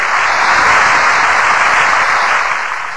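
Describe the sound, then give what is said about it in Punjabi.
Applause from a crowd at a Punjabi village fair as a female singer arrives on stage: dense, steady clapping that holds for the whole stretch and eases slightly toward the end. “ਇੱਕ ਵਾਰੀ ਜ਼ੋਰਦਾਰ ਤਾੜੀਆਂ”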